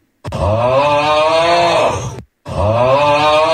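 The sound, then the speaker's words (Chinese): Recorded human snoring: a long, droning, groan-like snore that is loud and strongly voiced, then a brief silence and the start of another. “黄医师给我们鉴定一下哪一种呼噜声是属于他们在这个医学上所定义的这种呼吸暂停。那我们就来听听看哈，看看。”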